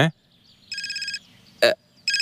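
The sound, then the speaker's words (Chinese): A telephone rings in loud, high trilling bursts: one long ring, a short break, then another ring that starts and is cut off. A brief voice-like sound falls between the rings. “我接个电话啊。”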